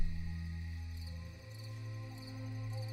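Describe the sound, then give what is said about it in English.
Crickets chirp inside a kitchen, giving a few short, high chirps spaced irregularly over a steady low hum. “How many insects do you have inside your kitchen? Maybe you should call a pest controller.”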